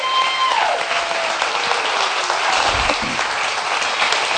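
A church audience applauds to welcome a family to the service: dense, even clapping that stays loud and steady from start to finish with no breaks.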